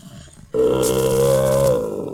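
A bear growl sound effect in a children's audio play: one loud, low, rumbling roar starts abruptly, holds steadily for over a second, then fades, heard alone.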